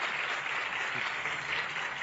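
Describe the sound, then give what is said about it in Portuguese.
Audience applause at a Bible talk: a steady, dense patter of clapping with no voices, held at an even, fairly soft level throughout. “Então vamos fazer o seguinte, então palmas para o Alvino.”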